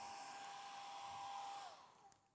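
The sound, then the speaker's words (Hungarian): A hair dryer runs near a bowl of water with a loud, steady airy roar and a thin whine, then winds down with a falling pitch and fades near the end. “És nagyon bízom benne, hogy minél jobban közelítem a tál felé a hajszárítót, a víz felé a hajszárítót.”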